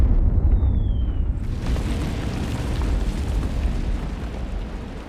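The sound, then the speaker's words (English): Artillery shelling bombards a city as a continuous heavy roar and rumble, with a faint descending whistle early on before the noise swells and fills the rest. “German artillery bombard the city morning to night.”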